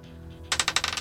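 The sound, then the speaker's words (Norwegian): A die thrown across a table clatters with a quick run of bright, rattling bounces that start suddenly after a quiet moment and become smaller and faster as it settles. “Du må kaste den her terningen som du får over bordet her nå.”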